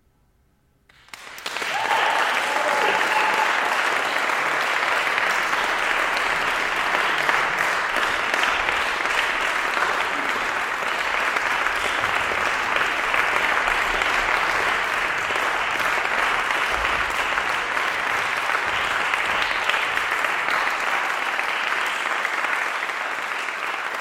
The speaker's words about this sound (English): Still, doesn't the sound of an audience sound sweet?